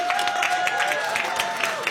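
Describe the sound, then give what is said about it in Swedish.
Audience applause for a music act's mix at a competition final, many hands clapping in a busy, slightly uneven patter that continues throughout. “Det där var Apex med Villa Nordvall, Alexander Olsson, en applåd för deras mix.”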